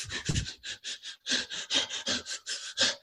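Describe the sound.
Someone demonstrates the sob breath breathing technique as many quick, hissing, sob-like breaths in a choppy, stuttering rhythm. The breaths are fairly faint, and no one talks over them.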